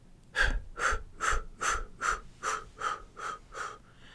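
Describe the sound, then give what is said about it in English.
Short out-breath puffs in a breathing exercise, nine quick airy bursts that empty the lungs in a steady, even rhythm, fairly quiet and alone. “just empty your lungs of air on the out-breath with short puffs.”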